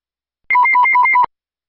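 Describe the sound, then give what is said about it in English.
Electronic telephone ring for a phone call: one short, loud warbling burst that alternates rapidly between a high and a lower pitch for under a second, with no voices over it. “It's just going to be a phone call.”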